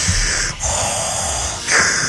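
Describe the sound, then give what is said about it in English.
A voice imitates a movie villain's heavy mechanical breathing: a few loud, rasping, hissy breaths, inhale and exhale phases separated by brief gaps, heard alone without speech. “Also, Darth Vader, just like you, heavy with breathing. I mean, what does that mean? You're not even walking upstairs, and you're like.”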